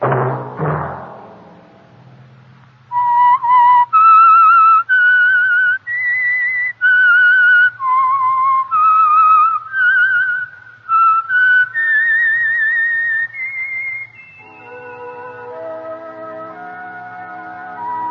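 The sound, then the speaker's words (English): A whistled signature tune marks a radio program: a loud, clear solo whistle carrying a melody of many separate held notes that step up and down in pitch, then giving way to a sustained musical chord. “That whistle be your signal for the Signal Oil program, The Whistler, each Sunday night at this same time.”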